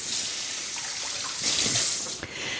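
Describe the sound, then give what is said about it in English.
Tap water runs over hands to rinse off sticky garlic while cooking, a steady, faint hiss of flowing water that swells briefly midway, with no talk. “The garlic is so sticky, which now I really have to rinse off.”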